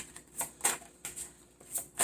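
Tarot cards being shuffled and drawn, heard as a few quiet, crisp papery riffles and snaps in separate short bursts, with no talking.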